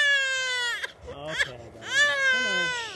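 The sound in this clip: A fussy four-month-old baby cries while being placed into a stroller on a suburban street, giving two loud, wavering wails separated by a short catch of breath and whimper.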